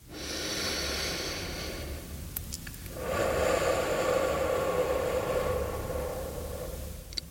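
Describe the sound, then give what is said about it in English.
A person's slow breathing: two long, airy, hissing breaths, each lasting a few seconds, soft and steady, with no talking. “Breathe in. Breathe out. One more time.”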